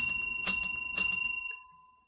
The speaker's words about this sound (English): And then I'm going to ring a physical bell, which sounds like this.